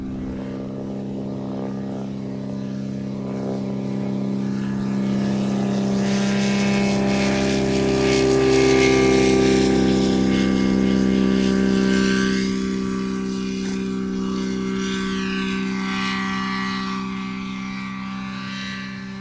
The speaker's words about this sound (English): Here's something I haven't seen before, and that's the launching of a motor glider.